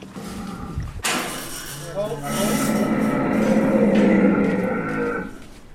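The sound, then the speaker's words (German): An unhappy camel on a farm west of Doha in Qatar gives a loud, rough groaning bellow after a brief low rumble. The harsh, rasping moan swells and holds for several seconds before easing off. “Kamel Nummer 14 ist unzufrieden. Es ist das einzige, das einen Laut von sich gibt.”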